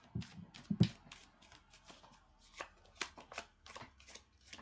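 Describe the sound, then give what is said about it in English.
A tarot card is drawn from the deck, with many soft, rapid papery flicks and rustles of cards being handled, quiet and with no talk. “All right, okay, you're picking a card for the day. Card of the day.”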